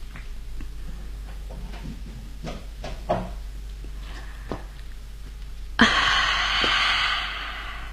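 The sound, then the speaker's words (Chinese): A window being opened: a few faint knocks and shuffles, then a sudden clunk followed by a sustained breezy hiss. “把窗户打开。 哦，好， 让风吹进来吧。”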